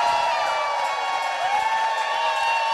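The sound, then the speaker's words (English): A crowd of more than 400 people cheers at the launch of a new low-power FM community radio station in Florence, Massachusetts. The roar is dense and loud, with shouts and whoops holding steady throughout. “That's the sound of more than 400 people flipping the switch on a new low-power FM radio station last month in Florence, Massachusetts.”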